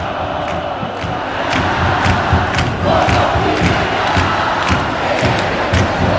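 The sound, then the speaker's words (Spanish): Football stadium crowd on its feet cheering during stoppage time, a loud, steady roar with regular rhythmic thumps running through it. “El público se pone de pie. Este es el ambiente, Gattuso, el jugador número 12.”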